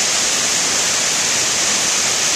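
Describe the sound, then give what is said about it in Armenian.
Steady roar of Armenia's highest waterfall, a dense, even rush of falling water that stays constant and fairly loud throughout, with no voices or separate events. “Շին հրապարակից տեղափոխվենք Թրջկանի ջրվեժ։ Այստեղ կարելի ասել ասեղ գցելու տեղ չկար, մի քանի 100 մարդ էր եկել, ևս մեկ անգամ հիանալու Հայաստանի ամենաբարձր ջրվեժով։”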